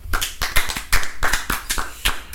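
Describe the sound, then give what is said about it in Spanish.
Hand clapping from a few people in a home recording studio, sharp, irregular claps scattered across about two seconds rather than a steady rhythm. “Un aplauso.”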